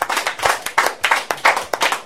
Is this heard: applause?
yes